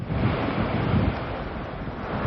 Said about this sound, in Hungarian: Ez pedig az ország legszelesebb pontja, a Kaphegy a Bakonyban.